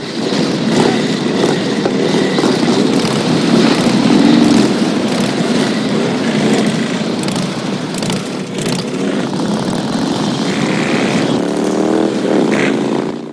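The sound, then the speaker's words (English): Motorcycle choppers rev up and move off en masse: a continuous, loud growl of several engines with rising and falling revs runs throughout. “The bikers rev up their choppers. They move out en masse.”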